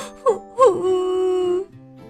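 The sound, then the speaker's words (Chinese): A little turtle cries. Two short whimpering sobs lead into one long, sustained wail that then tails off. “说着呀，富兰克林哭了起来。”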